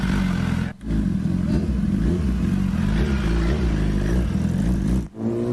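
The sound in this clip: Big-bike motorcycle engine revving loudly as the rider sets off to deliver barbecue, a steady, rough roar with two brief dips in throttle.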